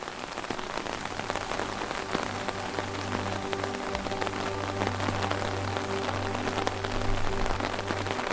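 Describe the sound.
Rain falls at night on a wide avenue lined with old oil lanterns and market stalls, a dense, even patter of drops on hard surfaces that continues unbroken throughout.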